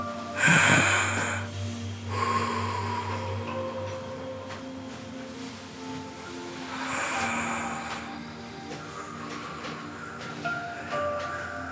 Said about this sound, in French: Pour ça, on va bien respirer.